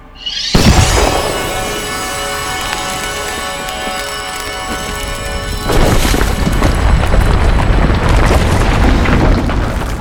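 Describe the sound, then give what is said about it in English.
Explosion blowing apart a brick wall, a tabletop game sound effect: a sudden loud boom followed by sustained rumbling, then a second surge of heavier crashing noise about halfway through that continues to the end. “This time when you shoot it, you blow it apart and the bricks fall on each other and you have opened a way out or into the next chamber.”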